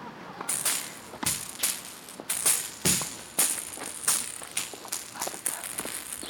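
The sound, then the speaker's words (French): A tennis ball is struck and bounces during a game of blind tennis in a park. Many sharp, fairly faint impacts come at irregular intervals, each carrying a brief bright rattling jingle. “Puis un matin, elle s'est décidée et elle a sorti une balle de tennis pour jouer au blind tennis.”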